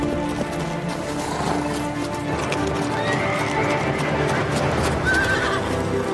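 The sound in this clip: Horses carrying a group of riders, hooves clip-clopping in a dense, steady stream of beats, with a whinny rising above the hoofbeats.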